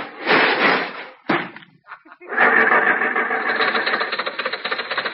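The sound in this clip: After a tire change, a car door slams and the car's engine starts, then settles into a loud, steady run with rapid, rhythmic pulsing.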